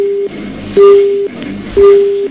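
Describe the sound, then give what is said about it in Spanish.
Telephone beep tone on a call-in line: three steady, evenly spaced beeps of about half a second each at one mid-low pitch, loud and alone. “Ay, que parece que cortó porque hay un pito de teléfono.”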